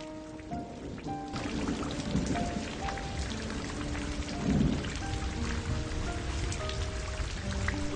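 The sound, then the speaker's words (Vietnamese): Wind and fine drizzle blow in through an opened window at night, a continuous soft hiss of rain with light patter throughout and no talking. “Gió chèn lẫn với mưa bụi ập vào mặt, lạnh như băng”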